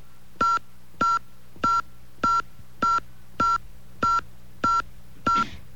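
Telephone keypad tones sound as a phone number is entered into an automated phone system. Nine identical, evenly spaced beeps follow one another at a steady rhythm, the same key pressed over and over.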